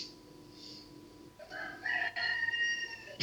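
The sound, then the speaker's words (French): A rooster crows loudly through the second half, one bright, drawn-out crow with strong harmonics after a quieter background opening. “C'est très plaisant ce coq.”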